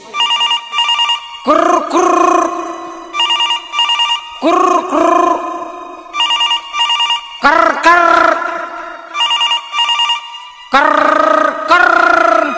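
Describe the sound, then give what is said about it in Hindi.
Loud electronic telephone ringtone as a wife calls her husband, a bright repeating melodic pattern cycling about four times in quick bursts with short gaps between. “हाँ जी phone लगेले भी औरतिया अपना पति लगी।”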